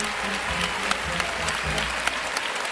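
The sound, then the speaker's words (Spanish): Spectators at a bullfight in a bullring give an ovation: a loud, dense clatter of many hands clapping that continues steadily for the whole clip. “Ortega, que recibe la ovación del respetable.”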